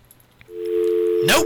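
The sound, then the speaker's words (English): A telephone dial tone, a steady, even, continuous tone that begins abruptly and holds level for under a second before a brief noisy burst cuts in at the end. “Nope. Just a dial tone.”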